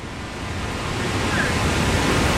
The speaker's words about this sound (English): That incredible sound you can hear, that thunderous sound, is the sound of the Victoria Falls here on the border of Zambia and Zimbabwe in southern Africa.